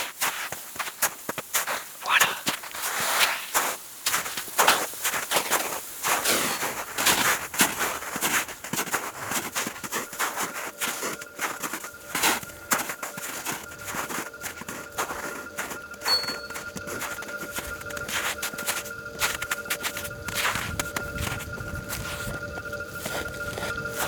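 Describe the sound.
Running footsteps heading onto a grassy slope: many quick, soft footfalls in a steady rhythm through the first half, then giving way to steadier tonal sounds.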